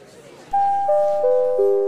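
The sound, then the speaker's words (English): A doorbell chime in a virtual house rings four clear tones, each lower than the one before, struck at a steady pace so the notes overlap and sustain. “Well, there's the chime.”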